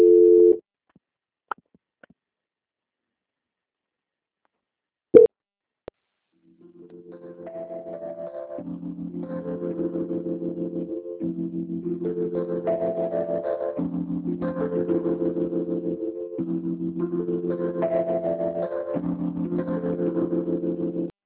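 Telephone line tones during a call transfer: a short steady tone and a few clicks, a pause, then a long run of repeating, stepped electronic tones that loop in a regular pattern.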